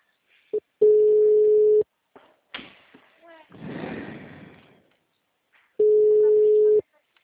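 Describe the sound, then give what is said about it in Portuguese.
Ringback tone of a telephone while a call is being placed: two long, steady mid-pitched beeps several seconds apart, with brief clicks and rustling handling noise between them. “tô ligando”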